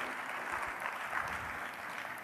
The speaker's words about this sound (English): We got a couple of golf claps here.